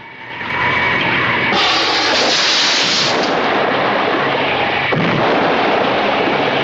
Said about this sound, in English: They turn and watch as the beach house explodes in clouds of luminous smoke and flames, a white arc pulsating around it.